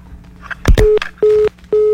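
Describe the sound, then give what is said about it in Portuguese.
A telephone tone after a dropped call: three short, steady low beeps in a regular pulse, preceded by a brief handset click and clatter. “Caiu a ligação outra vez, né?”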